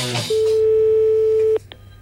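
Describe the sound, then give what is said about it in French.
A telephone ringback tone while a call is being placed: one steady, pure mid-pitched tone holds for over a second, then cuts off, followed by a couple of short clicks on the line. “Actuellement, nous sommes en train d'appeler”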